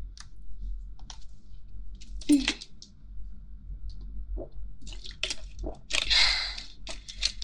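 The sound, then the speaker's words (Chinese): Someone sips a drink of water: a few wet mouth clicks and soft gulping swallows, separated by short pauses and heard on their own without talk. “我有点渴了，我也要喝一口水。”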